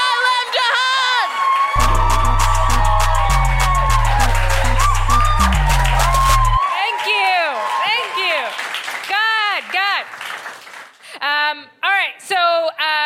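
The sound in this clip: Audience cheering and whooping as guests are welcomed to the stage: loud, sustained crowd noise with many high whoops and shouts, breaking into scattered cries toward the end.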